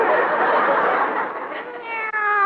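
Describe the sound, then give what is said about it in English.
Kitty cat meowing in a drawn-out cry, rough and breathy at first, then turning into a clearer, tonal wail near the end. “it's a kitty cat. Oh. Isn't he cute?”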